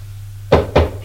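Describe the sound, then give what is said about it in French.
Two firm knocks on a door land in quick succession over a low, steady hum. “A frappé et entré.”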